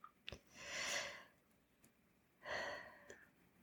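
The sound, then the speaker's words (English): A deep breath drawn in and let out, heard as two broad, airy swells of breath noise separated by a short pause. Both are soft and unvoiced, with no talk. “let's take three deep breaths in and out together.”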